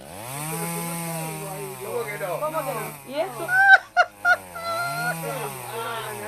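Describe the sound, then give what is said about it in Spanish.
A voice imitates a string trimmer with a buzzing, droning hum whose pitch wavers up and down, broken midway by a few short, louder, harsher bursts. “¿sabes cómo te va a entrar la máquina? El ruido de bordeador.”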